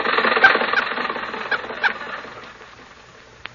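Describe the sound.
Car engine sound effect from a radio comedy: a rough, sputtering chug that slowly fades over a few seconds and ends with a faint click, with no talk.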